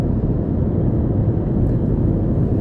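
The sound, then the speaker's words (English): A car drives down a highway at midnight, making a loud, steady, low roar of engine and road noise with no distinct events. “So I'm driving down the highway at midnight right now, and it's dark.”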